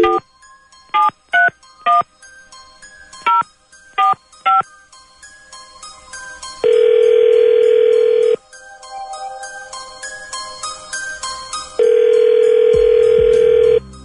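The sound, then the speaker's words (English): A telephone is dialed: a series of short touch-tone keypad beeps in quick, uneven succession, followed by two long, loud ringing tones with quieter tones between them. “All right, here we go. Dialing at random.”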